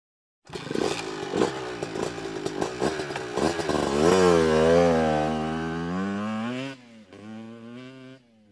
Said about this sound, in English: And this is a vehicle.